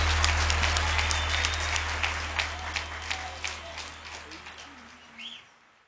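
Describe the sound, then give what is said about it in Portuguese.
Audience applause that starts full and gradually thins out over six seconds, ending in a few separate claps, with a steady low hum beneath. “De palmas para Eduardo Costa!”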